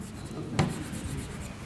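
Brief scratch of a mark being drawn by hand while filling in a table entry. A single quick, rasping stroke sits over a faint, steady background hiss.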